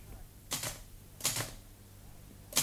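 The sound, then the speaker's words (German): Typewriter keys clack as a governor sits at the machine, pressing individual keys so letters appear on paper. The clacks come in a few separate bursts with pauses between them, each burst sharp and bright. “sitzt stundenlang vor seiner Schreibmaschine, freut sich wie ein Kind, dass er die einzelnen Tasten herunterdrücken kann und dann die Buchstaben auf dem Papier erscheinen.”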